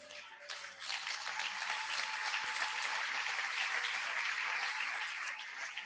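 A church audience applauding, a dense, steady wash of many hands clapping that swells in the first second and then holds an even level to the end.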